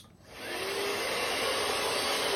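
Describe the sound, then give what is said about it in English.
A vacuum cleaner starts up and runs, its loud, steady whooshing whine building within the first half second and then holding at an even pitch, with no voices over it. “What note is this vacuum? Ready?”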